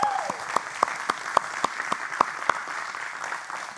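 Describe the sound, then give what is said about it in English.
A church audience applauds to welcome a new member. The steady clapping carries a prominent, evenly spaced clap cutting through it and tapers off near the end. “Welcome to the family. Everybody give her a hand.”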